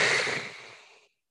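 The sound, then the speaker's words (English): A single heavy, mechanical-sounding breath that opens with a loud, hissing rush of air, then thins and fades to silence in about a second. “you can kind of hear breathing coming down one corridor one way, out of a vent the other way, from where Frax is standing behind you at another point. The breath is taken in.”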